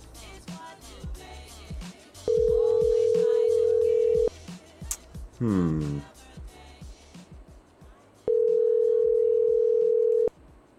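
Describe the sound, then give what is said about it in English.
A telephone ringing tone on the line sounds as two long, steady, mid-pitched tones of about two seconds each. Scattered clattering and clicking noises fill the gap between them. “Still ringing.”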